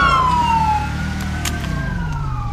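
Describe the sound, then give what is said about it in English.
Police car sirens blare in a video game, several overlapping wailing tones sliding down and back up, loud and continuous over a low rumble. “Hey, guys, all you need to turn off the sirens.”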